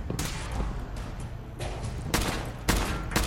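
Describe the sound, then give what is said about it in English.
Gunfire from a short assault rifle chambered for 5.56 rounds in a video game: dense, rattling automatic fire throughout, punctuated by a few louder, sharp bursts toward the end. “Here, let's try this. Short assault rifle.”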